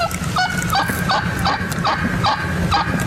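A wild turkey call gives a quick, even series of short, nasal, honking notes over a constant low rumble. No voices are heard.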